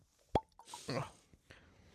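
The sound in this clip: A bottle is opened with a single sharp, hollow plop, followed by a brief soft hiss and a few faint rustles.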